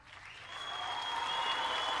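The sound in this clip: Studio audience applause greets a guest arriving on a talk show, a steady wash of clapping that swells from a soft start to a full, sustained roar.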